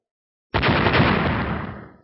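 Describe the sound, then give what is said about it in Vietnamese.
A massive explosion erupts, a dense roaring blast that holds at full strength for over a second before tapering off, heard alone. “Tiếng nổ ngập trời, gió mây biến đổi, hai ngón tay chấn động khựng lại.”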